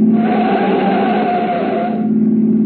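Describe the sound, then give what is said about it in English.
A car engine roars loudly as the vehicle speeds away from a pursuing taxicab in a chase. A steady, humming drive carries a whining tone that fades out shortly before the end. “behind us, sir, that taxicab. We're being followed. Drive, drive, sir!”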